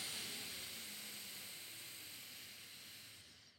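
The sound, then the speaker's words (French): A steady, airy nasal hiss of breath drawn in through the left nostril during alternate nostril breathing (Nadi Shodhana). The soft, continuous rush lasts about three and a half seconds and fades at the end. “vous obturez la narine droite et vous allez expirer, souffler avec la narine gauche. Puis inspirez narine gauche.”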